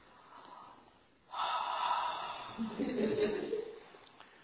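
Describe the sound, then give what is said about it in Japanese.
Deep collective breathing from an audience during a sermon: a long, loud rushing wash of breath rises suddenly and holds for nearly three seconds before easing off. “Can you breathe deeply? 皆さん、大きく深呼吸をしていただけますか？”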